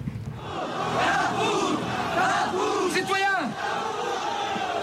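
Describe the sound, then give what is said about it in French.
A crowd at the storming of the Bastille, 14 July 1789, roars and shouts as one dense mass of voices, steady and loud throughout. “une place de la Bastille, Noir de Monde, en ce 14 juillet 1789”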